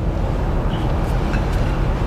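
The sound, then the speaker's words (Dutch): A Flying Spur car driving up and down a road gives a steady, loud roar of low engine and road rumble, mixed with constant wind noise and no talk. “om met deze Flying Spur de Route de Crête even op en neer te rijden.”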